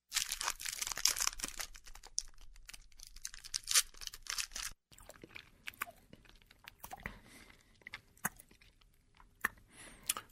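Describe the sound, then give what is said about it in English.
Crinkling and tearing of a Snickers bar wrapper, then crunchy biting and chewing of the candy bar. Quiet, dense rustling gives way to sparser, close crunches and mouth sounds, with no talking. “Don't you think you should probably have a Snickers first? You're right.”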